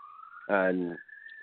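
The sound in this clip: Police sirens outside hold a steady high tone through the whole clip, briefly covered by a short burst of voice in the middle.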